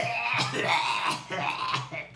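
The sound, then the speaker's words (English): A person imitates a harsh coughing fit after taking a small drag, with several raspy, breathy coughs in quick succession, loud and continuous. “coughing up a lung.”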